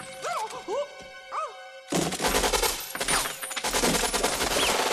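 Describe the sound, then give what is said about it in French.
Sustained automatic fire from an Uzi dropped down a staircase in a film scene: dense, continuous rattling bursts that crash in abruptly after a short wavering, pitched sound and keep going loudly to the end. “le fait de faire tomber le Uzi dans l'escalier va tuer absolument tous les méchants.”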